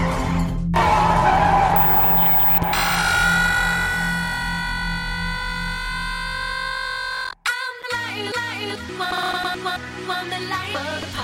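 A car accelerates with skidding tires during a chase. A loud, sustained engine roar carries high squealing tones that rise over several seconds, then the sound cuts off abruptly into different, choppier noise near the end.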